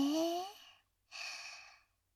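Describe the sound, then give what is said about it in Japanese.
A deep breath drawn during a guided breathing exercise: two soft, airy bursts of breath, the first with a faint voiced edge and the second smooth and steady, separated by a brief pause. “それでは、深呼吸をします。はい、吸って。”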